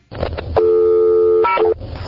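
Payphone dialing tones: a loud, steady electronic tone holds for about a second, then switches to a shorter tone of a different pitch before cutting off, over a dull background hum.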